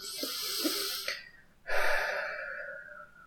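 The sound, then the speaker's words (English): A deep breath is drawn in through the nose, then let out through the mouth after a brief lull. The airy exhale starts strongly and trails off over about a second and a half. “I just want you to again take a deep breath in through your nose and out through your mouth.”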